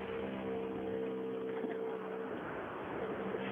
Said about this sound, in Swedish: Stänger av bilen här. Ja, det dånar mycket in i bilen.